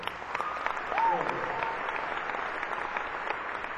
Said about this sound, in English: let's give Ian a big round of applause for that